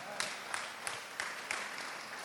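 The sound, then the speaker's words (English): Faint applause honoring a married couple, a soft wash of clapping with a few sharper claps standing out at a fairly even beat. “Oh, clap for them.”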